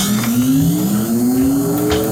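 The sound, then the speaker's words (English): Machinery starting up, used as a bumper: a loud, steady whirring hum whose pitch climbs gradually and evenly as it runs. “So the sound that I used, the sound of the machinery starting up, is actually a piece of machinery that we own.”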